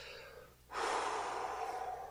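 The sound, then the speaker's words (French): One long, deep breath rushes in as a soft, airy hiss that starts abruptly and holds steady to the end, fairly quiet and without any talk. “Attends, respire, respire profondément, ça va passer.”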